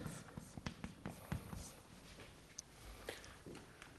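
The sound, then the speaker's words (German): Writing sounds during a lecture: faint scratching and tapping strokes that come in short, uneven bursts, all very quiet. “Ich schreibe es aber schon mal gleichzeitig untereinander.”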